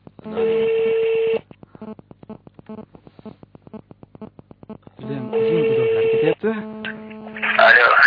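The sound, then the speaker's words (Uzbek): A telephone call is dialed for a live chat from a studio: steady tones, then a long run of many rapid, evenly spaced clicks, then further tones and a closing burst of noise. “Demak, hozir qo'ng'iroq qilamiz, to'g'ridan-to'g'ri.”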